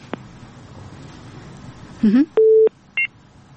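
Telephone line tones after a dropped call: a quick rising electronic chirp, then a steady held tone and a short higher beep, loud over a faint background hiss.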